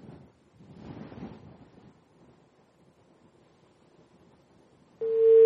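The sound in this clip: A telephone call cuts off and the line disconnects: faint, hissy line noise with soft murmurs gives way to a sudden, loud, steady electronic tone near the end.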